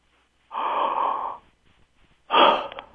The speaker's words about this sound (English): We call that first part, step one, the joy breath, because it produces the endorphins and other feel-good chemistry.